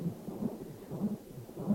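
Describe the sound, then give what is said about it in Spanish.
A heartbeat of low, muffled thumps in a slow, steady pulse, soft and deep with no voices. “Nos alineamos con el latido, con ese ritmo constante, con esa vibración.”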